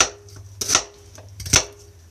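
A knife chops onion into bite-size pieces for a white stew, two sharp separate chops on a cutting board over a faint low hum.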